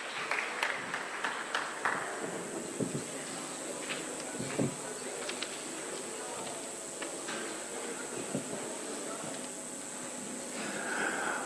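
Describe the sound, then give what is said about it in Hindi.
Sustained applause from an audience welcoming a speaker at a Diwali gathering: steady, dense clapping that holds at an even level throughout, with faint voices mixed in. “हम करतल ध्वनि से प्रताप भाई का स्वागत करते हैं।”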